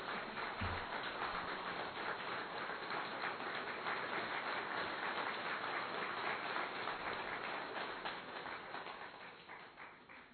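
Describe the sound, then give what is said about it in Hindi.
Dense, sustained clapping from an audience that a lecturer has urged to applaud loudly, an even wash of many hands that holds steady for most of the ten seconds before tapering off near the end. “एक बार तालियां बजाओ जरा अच्छी तरह से, जोर से बजाओ, जोर से।”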